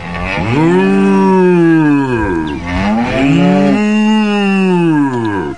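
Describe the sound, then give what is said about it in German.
A cow mooing, two long, loud, deep lowing calls with a brief gap between them, each held for roughly two seconds, with no voices. “Und kurz darauf stellt Obelix eine ganze Kuh auf den Tisch.”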